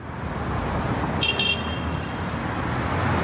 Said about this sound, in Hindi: GTA traffic में लोग अटके हुए हैं, लेकिन उनका अटेंशन तो बिल्कुल फ्री है।